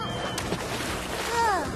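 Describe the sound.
Water splashing and sloshing in a bubble bath, a continuous churning wash that swells slightly toward the end.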